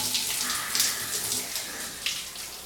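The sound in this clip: Hot water pours from a tap while someone washes close to the ears, a steady hissing flow broken by brief splashy surges.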